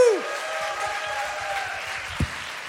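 Audience applause, a brief cheer followed by steady, moderate clapping from a crowd that holds evenly to the end.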